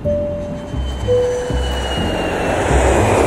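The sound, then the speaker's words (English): Airplane landing at LaGuardia: a broad roaring rumble of engines and rushing air that swells steadily louder, with a thin high whine drifting across it. “Cabin crew, prepare for landing.”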